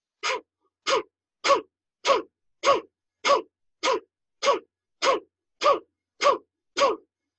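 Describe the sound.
Twelve forceful, diaphragm-driven breaths, pumped by pulling the stomach in and out with the abdomen hollowed, in a breathing exercise. Each is a short, sharp puff in a steady, even rhythm with brief silences between.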